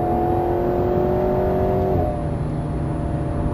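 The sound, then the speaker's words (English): Car engine pulling hard at high motorway speed in sport mode: a loud, steady droning note that drops in pitch partway through as it shifts up a gear, then carries on as a lower, smoother hum. “It's quiet in sixth gear. Well, we've got another gear, pull it again. Seventh gear.”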